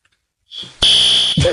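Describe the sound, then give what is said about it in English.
A fire alarm, triggered by a smoking popcorn machine in a state capitol, sounds as a loud, steady, high-pitched electronic tone that comes in abruptly after a brief softer onset and holds continuously. “the machine starts smoking and sets off the fire alarms. That's not a pleasant sound.”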